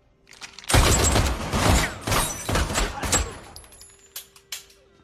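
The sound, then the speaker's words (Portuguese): Gunfire at someone wearing a bulletproof suit: several loud, sharp shots in a rapid barrage, followed by a few quieter clicks as the volley tails off. “Atira na cara dele. Atira na minha cara.”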